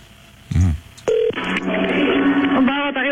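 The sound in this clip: Telephone dialing: a short burst, then a brief steady touch-tone beep as a number is dialled, followed by talking.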